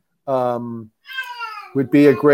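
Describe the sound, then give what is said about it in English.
A pet cat meowing in a few drawn-out, harmonic calls: a low, steady meow, then a higher call that slides downward, followed by several shorter, loud meows. “Are you okay with my cat?”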